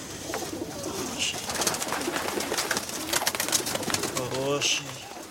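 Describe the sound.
Pigeons coo in a dovecote in an Odessa courtyard, with soft, low, repeated throaty calls and light rustling from the birds throughout.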